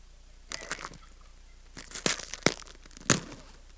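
A chewy chocolate cookie is crunched for dramatic effect, giving a few crackly, crumbly bursts separated by short pauses, with no talking.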